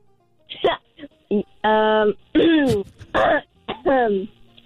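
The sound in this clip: Throat clearing: a run of raspy, voiced grunts and hacks of uneven length, several in quick succession, fairly loud and with no words spoken.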